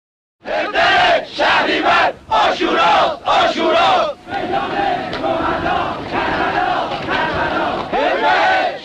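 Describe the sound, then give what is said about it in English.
A large crowd chants during the 1979 student uprising in Tehran in an archival recording, loud rhythmic shouted bursts of many voices that give way to a sustained roar. “And that was the scene in 1979 in Tehran, a student uprising backed by Muslim clerics and the Islamic Revolution in Iran.”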